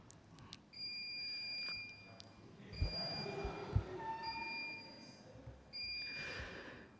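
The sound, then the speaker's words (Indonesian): An electronic alarm sounds during a religious lecture. Its high, piercing beeps come in a few sustained bursts over faint background noise, quiet overall, with no clear voices. “Di sini sudah ada alarm.”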